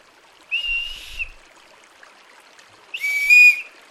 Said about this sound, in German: Die Tonhöhe ändert sich, je nachdem, wie weit wir die Rute in das Flötenrohr hineinschieben.